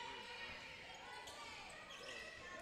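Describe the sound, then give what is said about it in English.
Basketball dribbled on a court during a women's college game between Southern Union and Central Georgia Tech, a few soft, faint thuds under steady crowd murmur and voices. “Titans dribbling, kind of being slow.”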